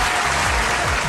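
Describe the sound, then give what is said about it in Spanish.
Dense applause from a radio show studio, sent out as a greeting to listeners, a steady, loud wash of clapping that fills a brief burst. “Desde acá le vamos a enviar un comité de aplausos.”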